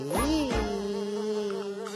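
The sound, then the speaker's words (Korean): A fly buzzes in a steady, low droning hum that holds one pitch for about two seconds, rich with overtones. “어? 오! 파리 비행사님이다!”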